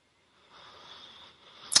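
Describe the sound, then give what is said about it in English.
A soft, airy breath drawn in by a speaker, faint and lasting about a second, followed by a brief sharp sound at the end. “and just taking this breath with you right now”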